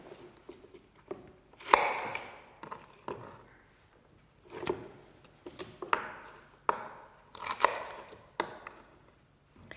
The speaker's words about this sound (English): So all that's left to do is to chop my celery and my bacon.